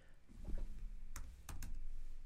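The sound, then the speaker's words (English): Fingers type on a computer keyboard, giving a few quick, crisp key clicks over a low background hum. “Now, I just looked these up beforehand. And I believe, let me type it in again.”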